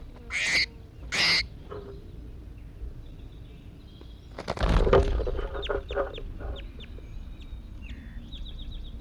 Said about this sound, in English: I think this is bird 81 calling here. Just released him.